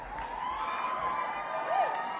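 A live audience cheering: a steady crowd roar with a brief whoop near the end.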